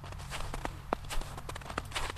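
Footsteps walk through a quiet pine forest outside Susanville, a series of soft, crisp steps at a slightly uneven pace over a faint, constant low hum.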